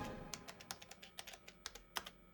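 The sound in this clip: Faint typing as documents for a lawyer are written up: quick, irregular keystrokes clicking in short bursts, with a few louder strikes.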